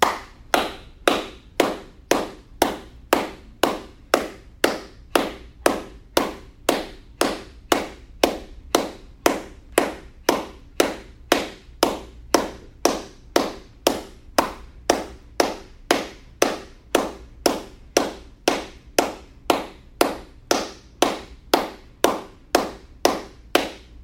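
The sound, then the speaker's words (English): Forceful breaths are pushed out through the nose in a breathing exercise, sharp puffs repeating many times at a steady, quick rhythm of roughly two per second, evenly spaced and alone without talk. “Belly snaps in the air, comes out. Here in the room, it's out the nose. At home, you can open wide.”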